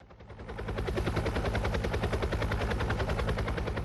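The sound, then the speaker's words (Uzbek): Russian-made Rostvertol helicopters produce a loud, steady, rapid rotor chop. The pulsing builds over the first half second, then holds an even, dense rhythm. “Bu vertolyotlar Rostvertol mahsuloti. Rossiya korxonasi ularni Venesuelaga yetkazmoqda.”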